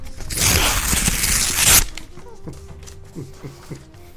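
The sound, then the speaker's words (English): An envelope being torn open during a quiz round makes a long, loud rasping paper tear lasting about a second and a half. Quieter rustles and a few soft taps follow. “open the envelope, please, and reveal the question. Freaking envelope.”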